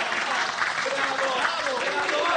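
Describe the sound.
A theatre audience applauds a stage play with steady, dense clapping from many hands that carries on without pause, fairly soft overall.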